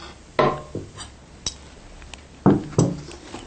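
A hot cooking pot is lifted off the stove after the heat is turned off, with several sharp metallic clanks and knocks spaced irregularly, some louder than others.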